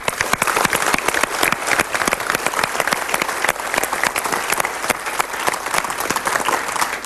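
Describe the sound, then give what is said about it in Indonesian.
An audience applauds volunteers at a gathering with sustained, dense clapping. Many overlapping hand claps form a loud, steady roar that continues without pause for the whole stretch. “marilah kita sekarang berikan tepuk tangan.”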